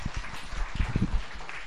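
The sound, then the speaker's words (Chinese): Brief, soft applause from a church audience, scattered uneven claps that thin out after about a second. “欢迎佢好嘛，俾啲掌声鼓励佢哋。”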